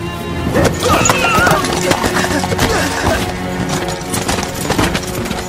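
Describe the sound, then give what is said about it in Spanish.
A mare in a cold, snowy stable makes horse sounds: busy, overlapping hoof clip-clops with neighing mixed in. The sounds are loud and continuous throughout. “La yegua relinchó suavemente”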